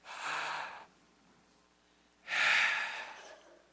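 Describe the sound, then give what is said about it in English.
A deep breath drawn during a church sermon: two airy, breathy rushes separated by a quiet pause, the second louder and longer than the first, with no talking over them. “Take a deep breath.”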